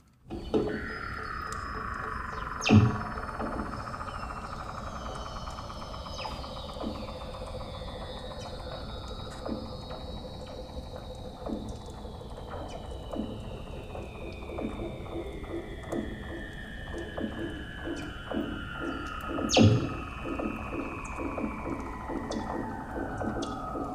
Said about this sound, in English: this was made with a hydrophone, and it's just the sound, in addition to whatever water sounds you hear, of the seals